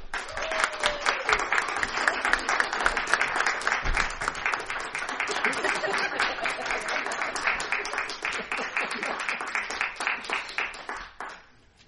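A theater audience claps for the youngest cast member. Many hands beat in a steady, almost rhythmic pattern that holds evenly for several seconds. The clapping then fades and stops.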